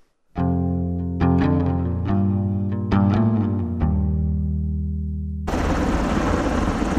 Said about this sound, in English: that's a sound of firefighting helicopters fighting a wildfire in Southern California.